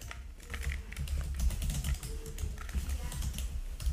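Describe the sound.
Typing on a computer keyboard, a quiet, continuous run of many rapid soft key clicks with an uneven rhythm and no pauses.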